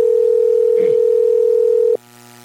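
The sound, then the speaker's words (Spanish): A telephone tone heard while calling someone, one steady, unbroken pitch that holds for about two seconds and then cuts off abruptly, leaving a faint hum. “Ahí le estamos llamando.”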